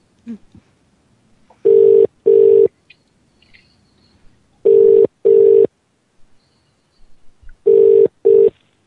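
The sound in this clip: Telephone ringback tone as a call is placed: three pairs of steady, mid-pitched ring bursts, each pair separated by a long pause, with only faint noise in between.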